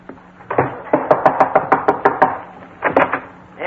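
Sharp, loud knocks on a door from a visiting detective come in a quick, even run of many raps. A brief pause follows, then a few more knocks.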